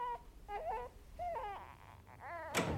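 A newborn baby cries in its mother's bedroom at midnight, several short, high, wavering wails separated by brief pauses, fairly faint.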